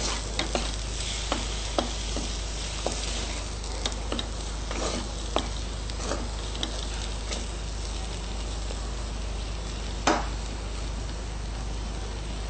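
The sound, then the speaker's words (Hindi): A spoon stirs chili powder and other spices into a tomato vegetable mixture in a pan over a low gas flame. Many scattered sharp clicks of metal on the pan sit over a soft, continuous sizzle. “अब इन सभी मसालों को gas का flame SIM पे ही रहते हुए mix करिए।”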